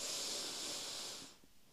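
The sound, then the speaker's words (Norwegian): A deep breath drawn in during a guided breathing exercise, a soft, airy hiss held steadily for over a second before it fades away, faint and with no talk. “Skal vi prøve? Puster vi godt inn.”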